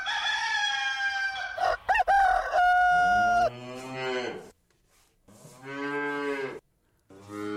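A cow being called in for milking moos in a couple of long, low, drawn-out calls, after a rooster's loud crow at the start.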